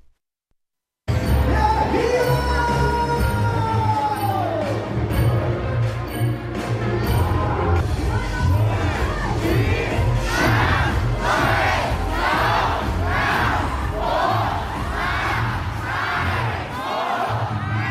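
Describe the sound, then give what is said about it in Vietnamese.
Thousands of people cheer and shout together at a New Year countdown celebration by Hoan Kiem Lake in Hanoi. The loud, continuous roar starts abruptly after a brief silence, and later swells into rhythmic, repeated chanted bursts. “hãy cùng chúng tôi cảm nhận không khí sôi động trong khoảnh khắc chuyển giao giữa năm cũ và năm mới tại Hà Nội đêm qua”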